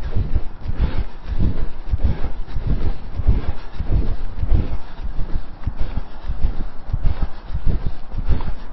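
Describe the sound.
Wind buffets the microphone during a breezy spring workout on a grass track, a steady, low, rumbling roar with gusty surges throughout and no voices.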